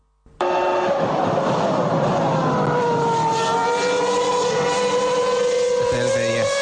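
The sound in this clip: McLaren Formula One car engine bursts in after a brief silence with a loud, harmonic-rich whine whose pitch dips slightly, then holds steady and sustained to the end.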